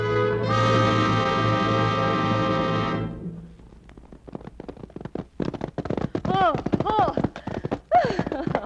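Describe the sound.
Horses gallop in a riding race, a rapid, uneven clatter of hoofbeats that begins after a sustained tonal passage and runs to the end, with voices speaking over the later beats.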